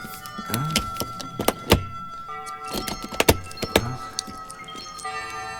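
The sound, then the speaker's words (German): A lock is pried open with a nail file, giving a series of sharp metallic clicks, taps and knocks with a faint ringing. The clicks come in uneven bursts with brief pauses between them. “Versuchen wir mal, ihn zu öffnen. Das dürfte eigentlich kein Problem sein. Ich darf mal diese Nagelfeile benutzen.”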